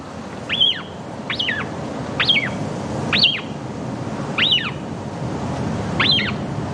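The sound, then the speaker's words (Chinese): Atlantic shearwater calls from a chick and parent at the nest: six similar high, sharp cries repeat at fairly regular intervals over a steady low background rumble. “大西洋鹱雏鸟需要大量食物，在它能够自力更生以前，亲鸟会养育雏鸟大约70天。”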